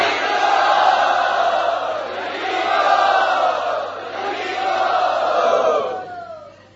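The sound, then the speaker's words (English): A crowd cheers loudly to welcome guests at Radha Gopinath: a sustained roar of many voices that swells and dips in waves, then tapers off near the end. “let us very loudly welcome them to Radha Gopinath.”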